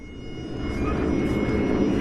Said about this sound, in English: ABC Toowoomba reporter Peter Gunders caught up with Matt Handley, the lead pilot of a formation of 4 Australian warbirds that flew across Queensland's Darling Downs today.